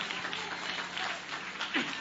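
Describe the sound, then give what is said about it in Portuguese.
Congregation clapping for Jesus during a church service, a steady wash of many hands applauding together at moderate loudness for the full stretch, with no single claps standing out. “Bate palma para Jesus.”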